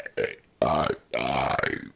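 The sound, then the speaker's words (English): A man burps after drinking lager beer. A short, faint belch comes first, then two long, croaky, rumbling burps, each lasting around half a second or more, with no talking. “I think I have to burp out more beer. It's not coming out. I know I need to. I know there's bubbles inside me.”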